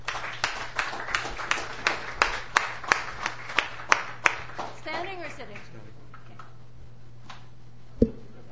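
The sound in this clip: Rhythmic clapping welcomes a performer to a songwriter's stage: about a dozen even, evenly spaced claps in a steady beat. A voice follows briefly, then near-quiet and a single low thump.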